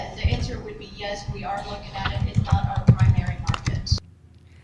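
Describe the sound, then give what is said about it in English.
Thumping keystrokes from typing on a small HP computer keyboard sound underneath a person talking, as irregular dull knocks mixed into the speech before the sound drops away near the end. “The noise you heard in the back, the thumping, was me typing as she was writing.”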